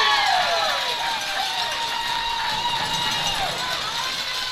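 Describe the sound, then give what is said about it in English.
Baseball fans roar in the stands after a fielding error by the second baseman lets two runners score, a dense, sustained crowd din with a few whistle-like tones running through it and a voice talking over the top. “As you hear the Rabbit fans go wild, error on the second baseman.”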